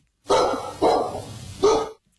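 A dog barks three times in short, loud, separate yelps with brief pauses between them.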